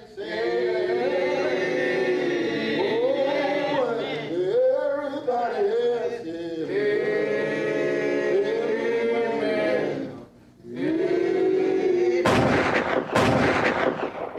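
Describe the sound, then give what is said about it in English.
Two sharp gunshots crack in quick succession as law officers arrive at a church where farmers are meeting. They come near the end, after a long sustained tonal passage. “Shots are fired, and in the confusion, a white man is killed.”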